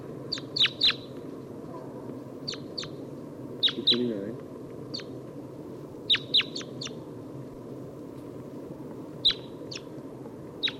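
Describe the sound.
Crossbill giving lob type 2 calls in trees, many short, sharp, high chip notes, often in quick pairs or clusters with pauses between, over a faint low rumble.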